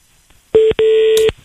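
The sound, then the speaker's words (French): Telephone line tones sound as a phone line frees up: a loud, steady tone, briefly cut off, then a longer one at the same pitch, with a short high chirp near the end. “Ça s'appelle une ligne qui se libère.”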